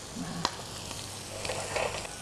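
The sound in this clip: A chicken steak sizzles on a ridged grill pan over high heat. The sizzle is faint and steady, with a single sharp tap early on and a few soft crackles, and no voices.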